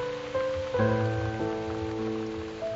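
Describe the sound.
Rain falls as a steady, even hiss of drops beneath a soft music bed of held, sustained tones, with no voices.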